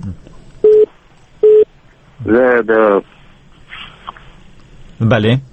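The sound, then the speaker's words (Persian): Telephone disconnect tones cut off a caller on a radio phone-in: two short, steady beeps, then voices talking. “متاسفانه تلفن مو قطع شد. متاسفانه تلفن شان قطع شد.”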